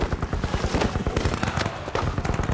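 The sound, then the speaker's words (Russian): Gunfire during a hand-to-hand fight in a fortress courtyard in a film scene: a fast, steady string of many sharp, loud bangs runs through the whole stretch. “Вайнштейн стреляет, и майор падает назад в комнату.”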